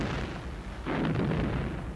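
Explosions from weapons bombarding snowy ground make a continuous, deep roaring rumble that surges louder partway through and stays heavy to the end.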